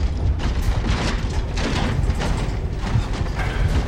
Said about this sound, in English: The elevator ascends. Fuck. Sam gets down and presses his ear to the floor. The elevator quakes.